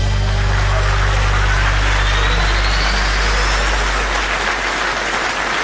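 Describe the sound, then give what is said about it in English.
Audience applause greets a show's host: a loud, dense, continuous wash of many hands clapping that stays steady throughout, with no voices standing out. “Now, please put your hands together for our host, Nick Forster.”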